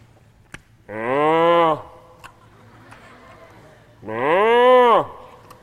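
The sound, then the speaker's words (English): A person imitates cows mooing in a field with two long, low, droning moos separated by a quiet gap. Each moo holds steady and then slides downward at its end. “have you ever seen cows out in the field? You know what they do? They're down there on all fours,”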